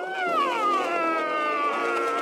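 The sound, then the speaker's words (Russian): A cat gives a single long, faint, drawn-out meow whose pitch slides downward early on and then holds fairly steady to the end. “Кот!”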